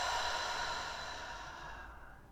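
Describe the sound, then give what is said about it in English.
A single long, breathy open-mouth exhale during a breathing exercise, steady at first, then tapering off and fading out near the end. “Take a deep breath in. Take an open mouth exhale.”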